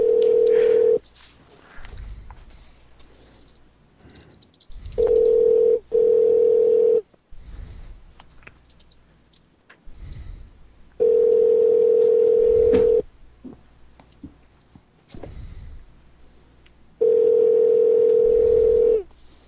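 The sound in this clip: A telephone line rings out while someone calls a person back, giving steady mid-pitched tone bursts of one to two seconds each. Between the bursts come gaps of low noise and faint background sounds.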